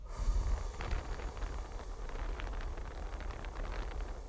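A slow breath is let out through pursed lips as part of a timed breathing exercise. It makes a soft, steady, airy hiss that lasts about four seconds, faint and alone, with a low rumble beneath.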